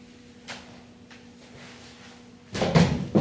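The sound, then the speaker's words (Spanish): Chairs are picked up and sat on by students in a singing class, making a few faint knocks early on and then a louder cluster of clunks and scrapes near the end. “Y cada uno va a agarrar una silla y se va a sentar.”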